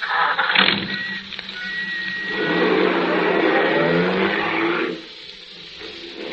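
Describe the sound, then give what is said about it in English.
A taxi cab driving off: a low engine hum swells to a steady, louder drone in the middle, holds for a couple of seconds, then drops away to a quieter rumble near the end. “Just drive it around for a while, cabbie.”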